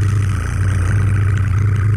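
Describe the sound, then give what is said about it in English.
A drum roll sound effect played before a giveaway winner is announced, a dense, steady low rumble rolling on without a break from start to finish. “Oh, you have you have like a cool drum roll or something you could throw in there, right? Yeah, I'll I'll do one. Okay. Yeah, drum ready? roll, please.”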